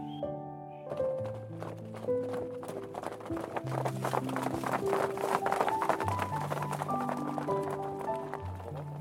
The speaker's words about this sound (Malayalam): എല്ലാവരും പോയി കഴിഞ്ഞു കുതിരക്കുളമ്പടി ശബ്ദം വളരെ ദൂരെ ആയതിനു ശേഷം ആലിബാബ